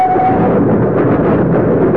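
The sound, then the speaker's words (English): A train travelling from Dover up to London gives a loud, continuous rumble that stays steady for the whole two seconds, with no voices. “He is now riding a train from Dover up to London.”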